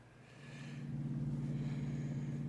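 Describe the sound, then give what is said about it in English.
A car driving in a movie scene gives a faint, low engine rumble that swells a little after the first second and then holds steady. “Back to driving in a car.”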